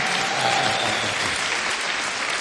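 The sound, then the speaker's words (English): An audience at a live music and spoken-word performance claps continuously, producing a dense, even wash of handclaps with no clear beat. “That's right, clap your hand. Go for it, go for it. That's right, clap your hand.”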